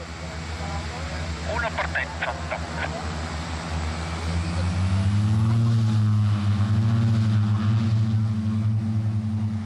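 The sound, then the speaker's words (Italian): Swiss Air Force PC-7 propeller aircraft leave the runway at Locarno airport, giving a steady, droning engine tone that swells louder and rises in pitch partway through, then holds strong to the end. “I PC-7 delle forze aeree svizzere lasciano la pista di Locarno”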